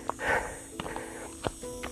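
Footsteps of a hiker climbing Monte Maior, a high mountain behind the village of Benavís, come as a few soft, irregular steps, faint against a steady background hiss.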